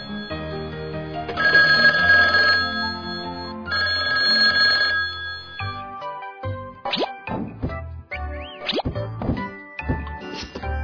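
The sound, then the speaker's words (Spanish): Telephone ringing in a children's rhythm story: two sustained bursts of electronic ringing over a musical backing, then many short plopping, chirping effects. “Teléfono. Teléfono. Teléfono.”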